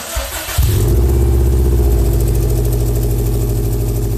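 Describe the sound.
A royal metallic blue Subaru's engine, just repaired, cranks briefly, catches with a sudden jump in loudness, then settles into a steady, even, low-pitched idle rumble.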